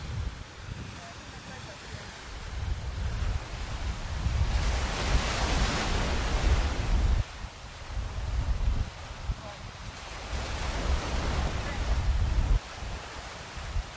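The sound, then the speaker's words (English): Sea waves of the Solent washing up to a sea wall, a broad rushing roar that swells and eases in a few slow surges, with wind buffeting the microphone. “and that's the sound of the Solent, I suppose.”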